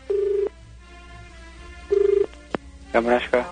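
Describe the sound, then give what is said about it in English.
Telephone ringing tone after a number is dialled, sounding as two steady buzzing ring bursts separated by a pause, then a short click, with a voice starting just at the end. “I'll dial it up for you.”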